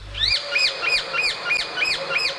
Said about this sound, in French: Perché en haut à gauche de ce tableau, on trouve un étrange oiseau, symbole des empereurs et de l'éloquence. Il s'agit d'un mâle de perruche à collier.